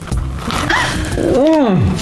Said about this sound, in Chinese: 很简单啊，您就这么着撕开，然后啊直接往嘴里倒。